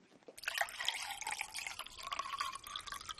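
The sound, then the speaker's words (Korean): Quiet, wet liquid sounds of someone drinking water and working it around in the mouth, a soft, continuous trickling and dripping texture that lasts a few seconds. “이거 그거 그 물을 마시는 건데. 오, 그래? 물 마시는 건데 오물오물 해가지고 배. 어, 아, 물을 먹고 삼키는 소리일 수도 있고 뱉는 소리일 수도 있다?”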